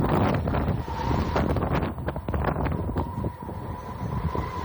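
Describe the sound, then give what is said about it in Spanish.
Strong tramontana wind blowing through Portbou, a loud, continuous, gusting roar with heavy rumbling buffets against the microphone. No voices are heard. “Aquí vive la tramontana. Es el pueblo donde más sopla. El capital del viento, ¿no?”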